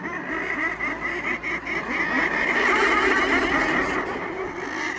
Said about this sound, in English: The sound you're hearing right there is thousands of murres, a seabird nesting high up on the cliffs of Coates Island